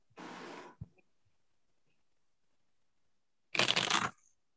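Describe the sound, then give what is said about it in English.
Playing cards being shuffled in two short, papery riffling bursts separated by a few seconds of near silence. The second burst is louder, and a faint tap follows the first. “Okay, I'm going to throw a couple of cards for you”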